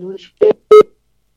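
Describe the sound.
Telephone keypad beeps as a number is dialed to call someone: a brief sound, then two short, loud, evenly spaced beeps, followed by silence.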